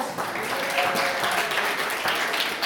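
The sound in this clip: Audience applause for a group of participating children, with dense, steady clapping that fills the whole stretch at an even, full level without a break.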